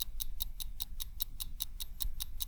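A clock ticks quickly and evenly, about five crisp, bright ticks per second, a dozen or so in all. The ticking is steady and unbroken over a faint low rumble.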